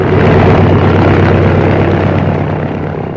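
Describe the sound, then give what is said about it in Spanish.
A small, modern light aircraft drones steadily in flight just after takeoff. The loud, even propeller-engine roar holds for about three seconds before easing slightly at the end. “Y me quedo asombrado de la pericia que tienes para pilotear un avión. El despegue lo hiciste en unos segundos. Estas modernas avionetas no ofrecen la menor dificultad.”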